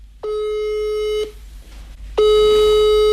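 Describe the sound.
A telephone ringback tone sounds while a call to a friend connects: two long, steady, loud tones of even pitch, each about a second long, separated by a short silence.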